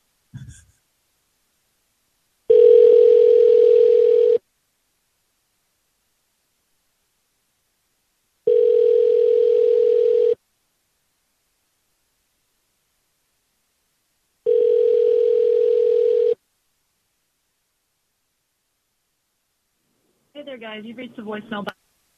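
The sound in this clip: A telephone call rings out toward voicemail: a steady ringback tone sounds three times in even bursts about two seconds long, separated by longer silences, before a brief recorded voice cuts in at the end.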